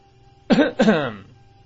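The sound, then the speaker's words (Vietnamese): A feigned throat clearing: two short, voiced bursts in quick succession, loud against near silence and fading quickly after the second. “Trầm Sùng giả vờ hắng giọng, rốt cuộc cũng được chú ý.”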